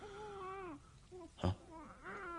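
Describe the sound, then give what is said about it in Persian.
An infant cries in a house, two drawn-out, wavering wails split by a short, sharp thump. The crying is faint overall. “وینی بچه داره گریه میکنه”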